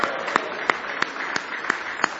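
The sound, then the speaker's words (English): An audience claps hands together in praise at a morning church service: a steady beat of seven sharp, evenly timed claps in unison over a continuous wash of background sound. “Good hand clap of praise this morning.”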